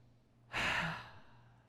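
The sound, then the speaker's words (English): A single deep breath released as a soft, breathy sigh: one brief airy rush that swells quickly and then fades, fairly faint and alone, with no voices. “Everybody just take a deep breath real quick. Just do it with me.”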